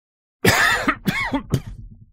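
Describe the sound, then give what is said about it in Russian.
A man coughs in three harsh, rasping bursts, a heavy smoker's cough after breathing hard with indignation. The bursts are loud and come in quick succession, each tailing off, with no talk. “Тяжело дыша от возмущения, Лео вдруг закашлялся.”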